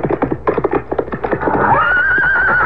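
A horse neighs, a loud whinny that begins as a fast fluttering pulse and then settles into a long, steady, high tone held to the end.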